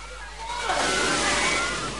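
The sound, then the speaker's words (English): Water surges in through a set of open doors in an underwater facility, a loud continuous rushing roar that swells after a moment and then holds steady. “Water floods in through one set of doors still open. The doors finally close and the flow of water slows.”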